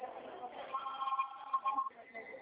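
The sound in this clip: A phone rings on an incoming call: a faint, steady electronic ring tone lasts about a second, with quiet murmuring voices underneath.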